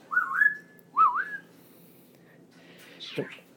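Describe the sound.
A pet bird whistles three times: two short warbling tonal whistles close together, then after a pause a sharper call that sweeps steeply downward in pitch, all fairly clear and alone.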